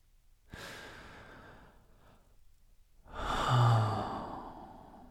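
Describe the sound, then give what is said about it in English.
A deep breath: a long, airy inhale is followed by a brief pause and then a fuller, louder exhale that swells and slowly fades, with no words spoken. “All right, time for our deep breath.”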